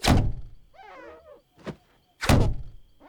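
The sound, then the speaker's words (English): Rabbits are thrown against a window, landing as three heavy thuds. A loud one comes at the start, a softer one follows midway and another loud one comes near the end. A brief squeaky, warbling cry sits between the first two. “The buck is outside throwing rabbits at the window.”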